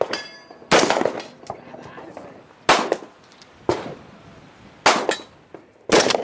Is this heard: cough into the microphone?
no

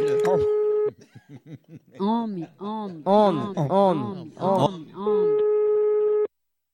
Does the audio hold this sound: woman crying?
no

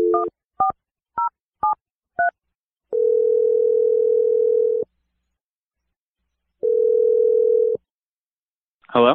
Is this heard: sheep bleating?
no

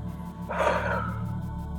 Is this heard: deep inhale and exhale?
yes

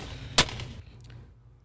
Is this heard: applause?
no

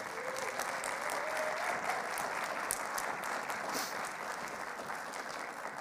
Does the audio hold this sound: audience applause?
yes

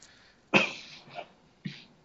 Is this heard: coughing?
yes

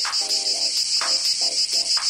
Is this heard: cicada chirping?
yes

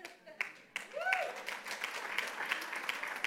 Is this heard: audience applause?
yes

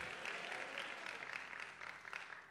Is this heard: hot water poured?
no

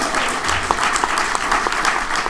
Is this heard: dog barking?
no

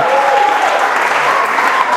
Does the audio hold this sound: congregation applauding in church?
yes

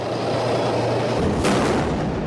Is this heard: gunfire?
yes

